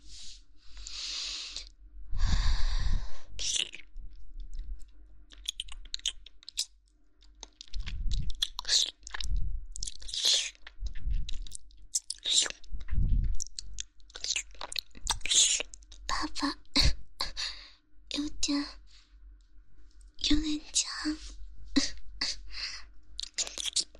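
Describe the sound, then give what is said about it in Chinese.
Wet mouth sounds of feet being licked in an ASMR roleplay: many irregular smacks, slurps and clicks, some soft and some crisp, scattered through the whole clip. “那现在小女仆给爸爸舔脚哦。”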